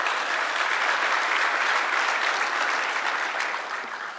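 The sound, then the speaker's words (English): Congregation clapping hands at a Sunday morning church service: sustained, dense applause, steady and loud throughout, easing slightly toward the end. “Let me hear your hands this morning.”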